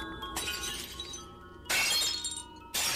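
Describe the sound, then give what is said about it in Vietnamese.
Cups and glasses are knocked off a drinking table and shatter on the floor. Three sharp crashes of breaking glass each burst out and trail off in tinkling shards, with no voices. “Nó đụng vào cái bàn uống nước, khiến cho cốc chén rơi xuống đất vỡ loảng xoảng.”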